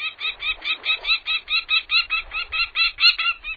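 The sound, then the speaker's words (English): A female falcon carrying prey calls across a bay toward her nest on a cliff face: a rapid, evenly spaced run of many harsh, high-pitched notes, loud and steady from start to finish. “when the female falcon, carrying prey, flew into a stand of madronas and cedars overhead. She called across the bay that separated her from the nest on the cliff face.”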